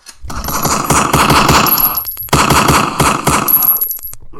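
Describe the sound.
Rapid gunfire rattles out in two long, loud bursts of fast, closely spaced shots, like an automatic weapon, with a short break between the bursts.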